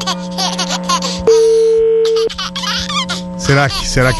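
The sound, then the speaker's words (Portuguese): A single phone ringing tone while a call is being placed, a steady mid-pitched hum lasting about one second, set between bursts of laughter and talking voices. “vamos ligar pro Léo Dias, lógico”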